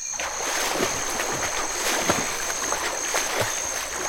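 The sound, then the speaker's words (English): Splashing of people jumping into a river and swimming: continuous churning water noise with a few sharper splashes, steady and fairly loud, over a faint, steady high whine. “Quick, jump into the river. Crocodiles? Swim! Swim for your life!”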